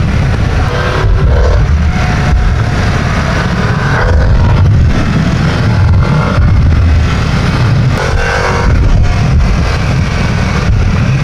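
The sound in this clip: Loud, continuous engine roar from a Harley motorcycle being ridden through corners, a dense rumbling drone that swells and eases slightly with the throttle, with no talking.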